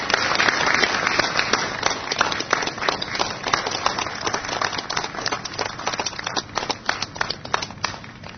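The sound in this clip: Audience applause greets a Broadway performer as she is welcomed onto the stage. Many hands clap in a dense, steady patter that holds at an even level for the whole stretch, with no voices over it.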